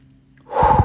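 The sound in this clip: A single deep breath is drawn in sharply. After a quiet start, the breathy inhale swells and fills the second half of the moment.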